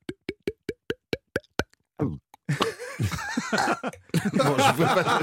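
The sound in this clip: A voice imitates a bottle being uncorked with eight quick, evenly spaced mouth pops, offered as a sound effect during a talk about wine. Chuckling and people talking follow.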